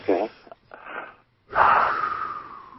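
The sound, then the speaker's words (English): A deep breath drawn in, preceded by a few shorter breathy sounds, then a long, loud, wheezy inhale that carries on to the end. “Take a big deep breath right now. Do this.”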